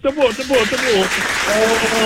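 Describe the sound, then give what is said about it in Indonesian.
Teachers clap their hands in a short burst of applause, a dense, even patter that runs throughout beneath a loud voice. “cikgu kita tepuk sikit cikgu, boleh cikgu?”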